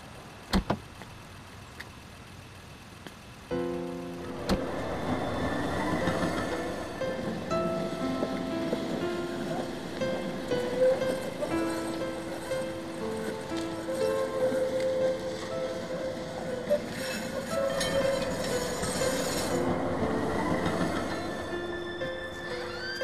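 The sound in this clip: A train passes on the railway beside an old house. A few sharp clicks come first, then a broad rumbling roar with steady whining tones and rattling builds and carries on for about twenty seconds to the end.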